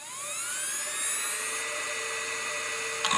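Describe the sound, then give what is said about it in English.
The mechanical hard drive of a 2005-era PowerBook laptop spins up: a high whine climbs in pitch over a steady airy hiss, then holds at a constant note, with a brief click near the end. “like my 2005 era PowerBook would sound kind of like this.”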